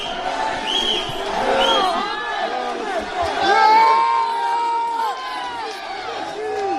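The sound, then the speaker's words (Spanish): A loud crowd of Paris Saint-Germain fans cheers for Messi in Paris, with many voices shouting and whooping in rising and falling cries. The noise stays continuous and swells in the middle before easing slightly. “locura desatada en París, gracias a Leo Messi, la nueva estrella del Paris Saint-Germain. El sonido en directo de París con Messi.”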